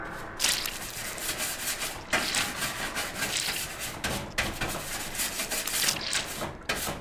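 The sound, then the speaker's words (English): Scrubbing to rub crud off and uncover an energy socket: a continuous, gritty, rasping rub with a few brief pauses, fairly quiet, with no voices. “There's got to be an energy socket under all this crud. Help me get it cleaned off.”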